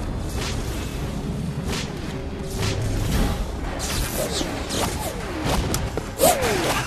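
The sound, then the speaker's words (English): Weapons fire across a battle in many irregular, sharp bangs and heavy booms, with whooshing bursts in between. “Nice shot, that is. The weapons fire.”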